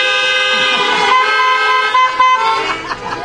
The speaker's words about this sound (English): If you would say amen, just toot your horn.